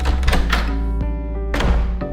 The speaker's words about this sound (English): As they descend the stairs, two more levels, the scientists go through a stairway door